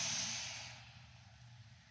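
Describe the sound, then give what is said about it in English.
A long, deep breath drawn in through the nose during a guided meditation: a steady, airy hiss that is strongest at the start and slowly fades over about two seconds. “I want everybody to begin with big breaths in through your nose”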